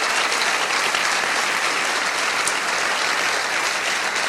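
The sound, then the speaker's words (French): An audience claps loudly at a Trash Talk evening hosted at l'Arlequin, a dense, steady burst of applause that holds at an even level throughout with no voices over it. “j'aimerais qu'on fasse un maximum de bruit pour l'Arlequin qui nous accueille ce soir.”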